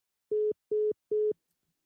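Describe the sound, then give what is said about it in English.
Phone line busy tone after the caller hangs up, three short identical mid-pitched beeps evenly spaced with brief gaps, steady and clean, followed by silence. “The caller has hung up.”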